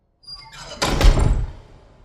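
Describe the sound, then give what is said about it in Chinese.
A room door is slammed shut hard. A brief rattle of movement comes first, then a heavy, booming thud that rings and decays over about a second. “关英讲完之后，就用力将房门关上。”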